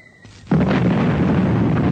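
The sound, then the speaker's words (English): An artillery shell bursts on a road in wartime. A quiet stretch gives way to one sudden, loud, deep blast, followed by a heavy rumbling roar that holds steady to the end. “Suddenly, a shell exploded in the road about 100 meters ahead of her, and the blast threw her from the bicycle.”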